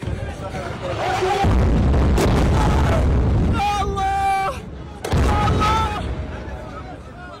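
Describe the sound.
Explosion from the shelling of al-Karam tower near al-Shifa hospital: a heavy, deep boom swells into a loud sustained rumbling roar, with shouting voices rising above it.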